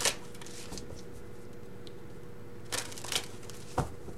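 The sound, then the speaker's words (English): Faint rustle of a Sensual Wicca Tarot deck being shuffled and cards drawn, with a few brief crisp riffles and snaps against a quiet background. “So let's just go ahead and get the cards drawn, Pisces, and we're going to do your reading again.”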